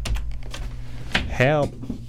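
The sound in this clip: Keys clacking on a computer keyboard, a short run of separate strokes with a brief voice sound partway through.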